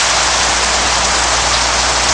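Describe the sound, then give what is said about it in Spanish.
Steady rain shower falling outdoors, a dense, even hiss of drops that stays loud and unbroken throughout, with no voices. “Está lloviendo otra vez. Nos ha pillado de nuevo el chaparrón justo al salir del rancho de Gigi Cale.”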